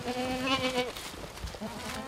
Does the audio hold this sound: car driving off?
no